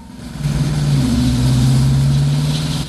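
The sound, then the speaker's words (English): A car engine runs as the car drives out of a car park, giving a low droning hum that swells early on and then holds fairly even, with no voices. “Victor wants you to get in the car. She gets in. He drives her out of the car park.”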